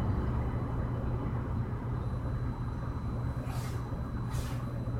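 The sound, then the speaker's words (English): Street traffic outside: a steady, low rumbling wash of passing vehicles with no break, and two short hissing bursts rising above it near the end. “when we stop to hear the traffic outside, how musical it is.”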